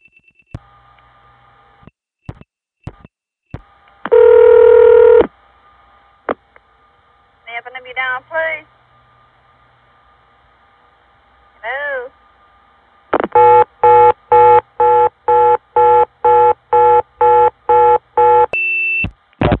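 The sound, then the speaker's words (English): A telephone line dialing a non-working number through an Independent end office to Southern Bell intercept: clicks, loud multifrequency tone bursts and warbling signals, then a long run of short, evenly spaced repeated tone pulses of a reorder signal. “I'll dial a non-working number, 0111.”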